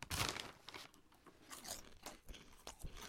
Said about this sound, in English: Werther's Original caramel popcorn. That's sick. And you know what people love on podcasts? Eating.